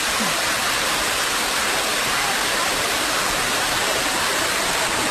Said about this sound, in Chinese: 我们现在到了这个九坛八铺这儿啊，就可以听到这个瀑布的声音，小瀑布，我们来听一听这个声音。啊，这是泉水的声音是吗？ 对，这都是泉水。